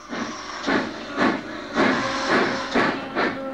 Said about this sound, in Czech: Jen tam vlezl, ani se nestačil rozhlédnout a mašinka se sama rozjela.